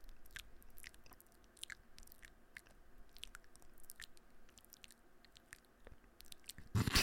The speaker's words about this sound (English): eating some pho, and recording a podcast. Happy to. It was really good. I was really wanting us to eat while we recorded. Oh, that'd be good. ASMR.